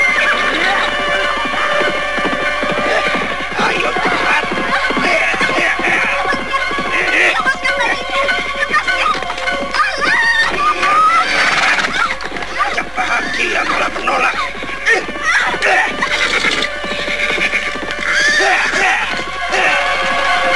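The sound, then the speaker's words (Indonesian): Several ridden horses gallop fast with repeated neighing and whinnying over a dense, continuous rush of hoofbeats, loud throughout. “Sementara itu di tempat lain, terlihat beberapa ekor kuda tengah berlari dengan cepatnya.”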